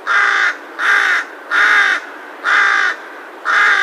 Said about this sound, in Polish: Posłuchajmy gawrona, oczywiście w przestrzeni miasta. Tego tutaj 3 lata temu w Parku Miejskim w Tychach